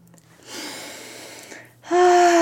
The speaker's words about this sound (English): Just taking a few deep breaths here, friends